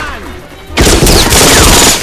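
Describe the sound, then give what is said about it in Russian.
In a war film, German soldiers fire from their trenches. After a quieter lead-in, sudden loud, sustained volleys of gunfire crackle and boom without pause to the end. “Немецкие солдаты из окопов открывают огонь. Солдаты вылезают из окопов и бросаются за парнями.”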